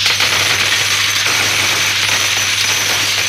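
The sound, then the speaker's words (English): Coins drop and jingle in a continuous, bright metallic clatter that goes on steadily for about three seconds. “That's the sound of money! Money you can win on WHK's Cash Quiz Jackpot!”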